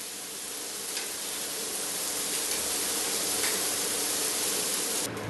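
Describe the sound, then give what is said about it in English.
Meatballs frying in a pan give off a steady, even sizzling hiss that continues unbroken, with no voices. “So our meatballs have a lovely color on them and we're going to take them out of the pan right now.”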